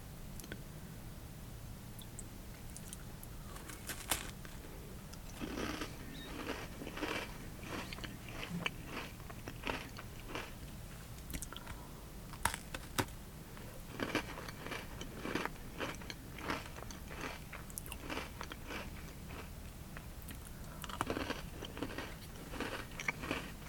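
Biting and chewing a Halloween jack-o'-lantern Oreo cookie: many crisp crunches and sharp clicks scattered irregularly throughout, with a denser flurry near the end. Quiet, with no talk.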